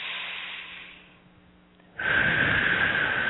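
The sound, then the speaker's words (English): A deep breath taken during a guided meditation. A soft, airy inhale fades into a quiet pause, then a louder, steady breathy rush carries on to the end. “Nice deep breath.”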